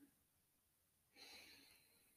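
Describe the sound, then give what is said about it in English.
One slow breath is drawn in through the nose during a relaxation exercise, a soft airy hiss lasting about a second, alone and without talk. “So relaxing the body as much as possible and breathing in through your nose,”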